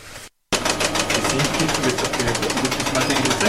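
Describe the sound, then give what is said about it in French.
Fast, rhythmic mechanical clatter from a chocolate enrobing machine, a coating conveyor belt at the final stage of chocolate making in a workshop. It runs steady and fairly loud after a brief silent gap at the start. “Alors, c'est quoi ce bruit qu'on entend là? Là, c'est le bruit de l'enrobeuse, en fait.”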